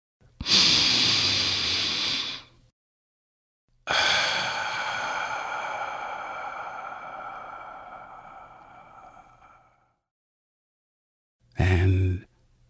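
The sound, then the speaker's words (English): A deep breath: a loud inhale of about two seconds, a long, slowly fading exhale of roughly six seconds, then a short, sharp intake of breath at the end, with silence between them. “And now, if you're ready, let's take that deep breath.”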